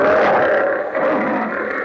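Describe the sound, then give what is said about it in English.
A lion's roar in a car battery advertisement: one loud, rough, sustained growling tone of nearly two seconds, steady in pitch with a brief dip in loudness midway. “As the lion says...”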